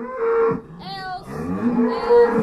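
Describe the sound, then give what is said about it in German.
A dairy cow moos in a barn stall on an urban farm built on an old industrial site in Amsterdam. A few deep, drawn-out, harmonic calls come loud and clear, with no talk. “Els ist eine Milchkuh und steht in einem Stall mit Ausblick auf ein altes Fabrikgebäude.”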